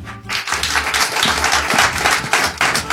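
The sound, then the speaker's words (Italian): Applause from an audience at a live radio event, a dense, steady patter of many hands clapping throughout, fairly loud and with no talk over it. “Quindi grazie di essere qua, un applauso a voi come facciamo”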